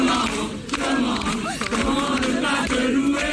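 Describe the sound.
Crowd of faithful cheering Pope Leo XIV at an open-air Mass on the Place de la Concorde in Paris, a loud, sustained roar of many shouting voices that swells and stays strong throughout.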